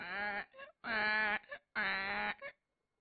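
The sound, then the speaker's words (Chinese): A child cries in three long, wavering wails. Each wail ends in a short, broken sob or catch of breath. The crying is loud and clear, with no talk over it. “远处，其实也是不远处，有孩子啼哭之声啊！”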